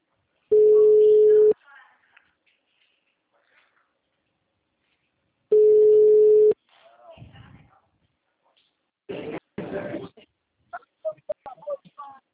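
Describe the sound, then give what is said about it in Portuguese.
Ringback tone of an outgoing phone call: two long, steady, mid-pitched beeps about five seconds apart, then faint rustling and a voice briefly answering. “Ligando pra ele pra fazer o áudio.”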